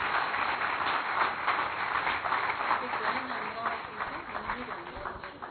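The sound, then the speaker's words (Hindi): An audience claps at a gathering, a dense, rapid patter of many hands that stays fairly even before thinning slightly, with a voice heard over it toward the end. “ताली थोड़ा जोर से बजनी चाहिए।”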